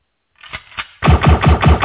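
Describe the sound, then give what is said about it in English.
Gunshot sound effect: two sharper single cracks come first, then a loud, rapid stream of shots like automatic fire. “You shot brother Pianki. Yeah, I shot him.”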